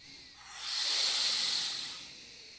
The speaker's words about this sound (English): Let's all do that one more time. Deep inhale through the nose.